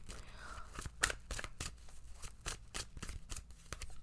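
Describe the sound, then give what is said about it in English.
Tarot cards are drawn from a deck, giving many quick, soft snaps and slides in an uneven rhythm. The sounds are faint, with little else around them. “Okay, let's pull some cards, shall we? Let's see what you need to know this week.”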